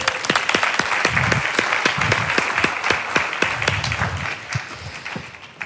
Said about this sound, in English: Put your hands together and give a warm welcome to Yvonne Godfrey.